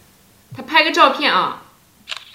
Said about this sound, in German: Ich mache mal ein Foto.